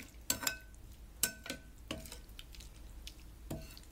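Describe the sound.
Ingredients are stirred in a pan while cooking, with several sharp clinks and scrapes of a utensil against the pan at irregular intervals over a faint background hiss.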